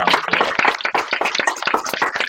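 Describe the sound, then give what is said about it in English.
A round of applause erupts, with brisk, overlapping claps forming a steady, lively patter that carries on throughout without talk. “round of applause for the engagement. Definitely round of applause.”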